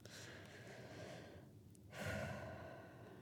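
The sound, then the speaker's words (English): A deep breath drawn by a person: a long, soft breathy rush, a brief near-silent pause, then a fuller, louder breathy swell that slowly fades. “Okay, take a deep breath. We're going to go on. First breath.”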